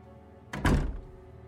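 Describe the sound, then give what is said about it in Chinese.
A door being shut and locked again as people leave a room, a single dull thunk standing out over a steady low background hum. “几个人也相继走出了房间，门。又被重新锁上了。”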